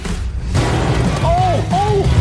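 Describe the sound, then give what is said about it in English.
A sledgehammer strikes a car built to be unbreakable: a heavy, booming impact over rumbling noise, with voices calling out afterward. “What do you think? Sledge right here?”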